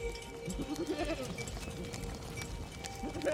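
A herd of sheep bleats faintly on a heath on a mid-March morning, with a few short wavering calls over a soft, rustling background.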